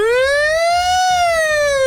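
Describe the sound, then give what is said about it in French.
A voice imitates a brand-new police siren with a loud, sustained, tonal wail that climbs in pitch and then slowly sinks again, over faint low rumbling underneath. “Les toutes nouvelles sirènes de police, elles font.”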